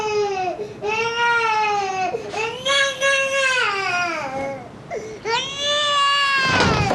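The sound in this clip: An infant cries after waking up. The loud, wailing cries come in several long bouts, with short breaks for breath between them, and hold a high, quavering pitch throughout.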